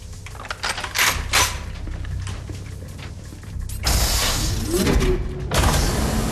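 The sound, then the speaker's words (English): A sci-fi airlock door opens with mechanical clanks and ratcheting, then a loud, broad hiss of rushing air lasting over a second, followed by more low mechanical rumbling. “Opening a door from within the airlock, Portman and Goat”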